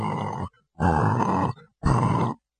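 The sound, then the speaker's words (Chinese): A voice imitates a sleeping man's loud snoring: three long, rough, grunting bursts separated by short pauses. “正赶上轮到乔斌那儿打呼噜呢。您想想这开路鬼乔斌那个呼噜打的那个响啊。”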